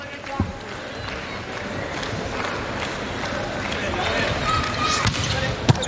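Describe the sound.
Sharp ball strikes ring out during a volleyball match, a serve among them, against a steady roar of arena crowd noise. Two distinct hard thuds stand out, one early and one at the very end.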